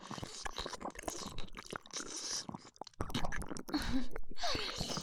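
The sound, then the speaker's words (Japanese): Wet kissing sounds, a stream of close, soft smacking lip and mouth noises in an irregular rhythm that grows somewhat louder in the second half. “こんなに気持ちいいなら、もっと早くキスしとけばよかったな。いっぱいキスしよ”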